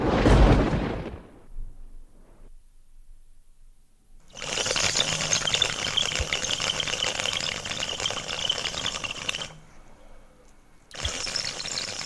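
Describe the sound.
An old man draws smoke through a tobacco water pipe, giving a bubbling, rattling gurgle. After a brief sound at the start and a silence, one long sustained draw is followed by a pause and then a second draw.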